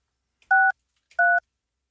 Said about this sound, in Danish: jeg ringer til dig nu.